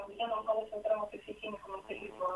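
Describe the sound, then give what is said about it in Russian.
A radio plays muffled in the background of a listener's call into a live talk programme. The sound is narrow and tinny, like a phone line, and a caller's voice talks over it throughout. “Алло, здравствуйте, вы слышите нас? Выключите, пожалуйста, радио, вас плохо слышно.”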